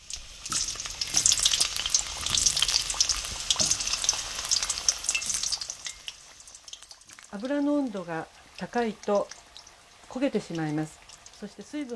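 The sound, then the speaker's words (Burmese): Sizzling of water spinach shoots frying in oil over low heat, a dense steady hiss with crackles for about six seconds before it quiets and a person talks over fainter frying. “တ ုံးထားတဲ့ကစုံဦးတွေကိုတိတ်မပြင်းတဲ့အပူနဲ့စကြော်ပါမယ်”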